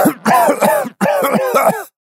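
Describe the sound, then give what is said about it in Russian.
Harsh, voiced coughing breaks out in two rapid bursts of several throaty hacks each, loud and strained, with a brief pause between them and no speech. “Кашель прервал мою речь”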